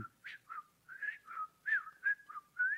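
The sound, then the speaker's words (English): Whistling by a person imitating a supervisor's distinctive whistle: a rhythmic run of short, clear tonal notes, several sliding upward, with no other sound. “And so our supervisor had this unique whistle. He'd go,”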